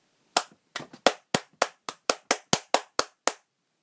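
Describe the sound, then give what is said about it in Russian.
Sharp hand claps of applause, about a dozen in a quick, even rhythm, crisp and moderately loud, heard alone without voices. “Кто-то захлопал, на этот раз с большим оживлением, и Рейнер присоединился к аплодисментам.”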